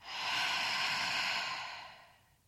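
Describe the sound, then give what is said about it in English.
Breathing in through the nose and out during a breathing exercise: one long, airy, hiss-like rush of breath that holds steady, then gradually fades away. No one talks. “First, I want you to breathe in through your nose and breathe out.”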